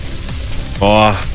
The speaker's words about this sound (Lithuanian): Girdit, kaip kepa? Tas kvapas.